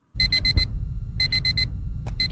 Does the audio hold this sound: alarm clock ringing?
yes